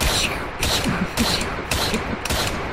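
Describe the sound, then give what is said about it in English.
Gunfire rings out during a demonstration of bulletproof gloves, a quick, even series of sharp cracking shots over steady background noise. “Here, you could shoot at me, and I'll demonstrate my bulletproof gloves, okay, how they work. Go.”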